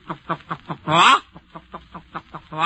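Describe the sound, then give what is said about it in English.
Hens clucking as they run about picking up corn: a quick, rhythmic string of many short throaty clucks, with one louder, drawn-out squawk midway and another rising at the end. “the clucking of the hens as they run about picking up a little corn here, a little kernel there”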